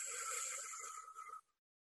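One deep inhalation, demonstrated as part of a breathing exercise, comes as a faint, breathy rush lasting over a second before it cuts off abruptly into silence.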